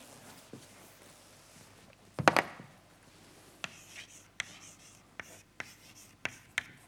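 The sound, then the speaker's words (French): Writing an equation on a board during a mathematics lecture: one longer scratchy stroke, then many short, sharp taps and scrapes spaced irregularly, quiet and crisp against a low hum. “Alors, je réécris l'équation KPZ.”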